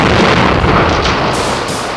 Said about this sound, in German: Diesmal gab es statt eines hellen Knalls eine dumpfe Explosion und danach eine Serie krachender Geräusche und Funkenregen.